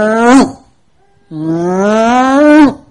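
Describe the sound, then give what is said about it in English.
A voice imitates a stacker wagon turning at the end of a row in its lowest gear with two droning, engine-like hums. A short hum is followed by a longer, steady hum that rises sharply in pitch as it ends. “you'd put that stacker wagon in way granny grandma low, and you would turn the wheel and it would go,”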